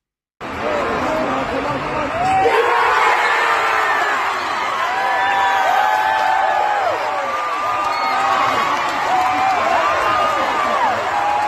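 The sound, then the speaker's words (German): Stadium crowd at the final kick of a football penalty shootout: a dense mass of voices that surges into loud cheering and whoops after the opening seconds, then stays loud and sustained to the end. “der letzte Strafstoß, der klang dann folgendermaßen, zumindest aus der Sicht von Annika.”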